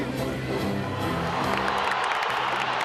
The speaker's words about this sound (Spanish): Y ahí está la ovación, el aplauso cerrado para Lucas Hugo.